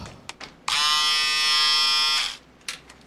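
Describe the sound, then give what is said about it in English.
Electric razor switched on and buzzing steadily for about a second and a half, a bright harmonic hum that cuts off abruptly, with a few faint clicks before and after. “Look what I got for you. An electric razor. So you can shave yourself now.”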